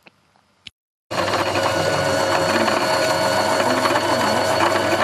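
Sewing machines run loudly in a small room inside a two-story house at Sumalava, a dense continuous mechanical whirr and clatter starting abruptly after a few faint clicks.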